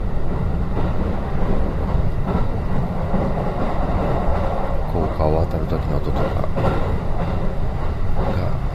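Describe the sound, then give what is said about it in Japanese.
A train crossing a steel railway bridge gives a loud, steady rumble with faint clatter from the wheels, running unbroken throughout. “ちょっとしたこう鉄製の橋梁を渡る時の音とか、”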